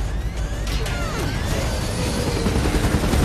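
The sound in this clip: Bullets strike a helicopter, with sharp metallic impacts scattered through a dense, loud roar of rotor and engine noise that holds steady throughout.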